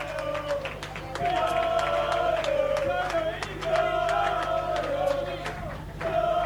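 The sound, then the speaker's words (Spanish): Audience applause at a live radio show performance, many scattered sharp claps mixing with sustained tonal sounds and voices. “Un segundito, un aplauso para mi hermano el Cholo que tiene mucho que ver con esto, loco.”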